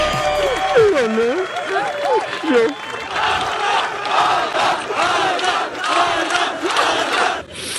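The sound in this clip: Fans cheer and applaud a runner reaching the finish in Los Angeles after running across America. Loud whoops and shouts build into dense clapping and crowd noise for about eight seconds.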